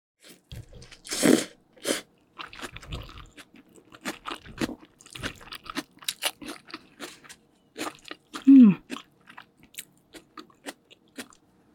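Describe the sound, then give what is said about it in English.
Crunchy biting and chewing of steamed rice roll (bánh cuốn) eaten from a to-go box, with a few louder crunches among many small, soft mouth noises and no talk. “Let's taste the steamed rice roll first.”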